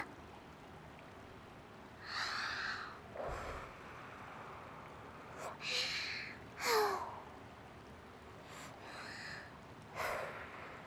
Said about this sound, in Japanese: ここまで来たら、ふぅ、ふぅってして、浸透するのを待ちますよ。